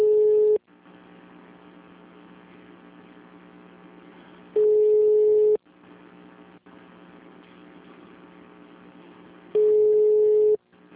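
A telephone line tone plays while a call is transferred: three loud, steady tone bursts of about a second each, spaced roughly five seconds apart, with a quieter line hum and hiss between them.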